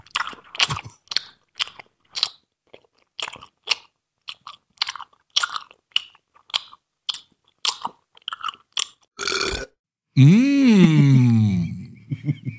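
Crunchy chewing of a lemon snack, close to the microphone, with many irregular crisp bites, then a drawn-out, wavering moan of enjoyment at the end.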